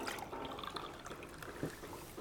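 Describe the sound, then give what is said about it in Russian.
Milk pouring from a bottle and overflowing its container, spilling across a countertop, as a continuous, fairly loud gurgling, splashing liquid rush that stays steady throughout. “Молоко льется через край”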